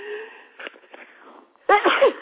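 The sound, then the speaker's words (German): A woman sneezes once in a loud, sudden burst near the end, after a few fainter breathy sounds. “Jetzt konnte ich es nicht mehr verhindern, musste sie doch noch einmal niesen.”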